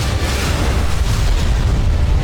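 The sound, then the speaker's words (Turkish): Impact explosion of an Aselsan Tolun P bunker-buster guided munition striking its target in a test firing: a loud, dense roaring blast that holds steady throughout without pause. “Savunma sanayinin yeni gözdesi sığınak delici Tolun P hedefi tam isabetle vurdu.”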